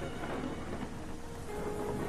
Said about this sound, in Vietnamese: Ở bên ngoài, trời vẫn mưa gió đùng đùng, sấm sét vẫn đổ dồn dập, lập lòe.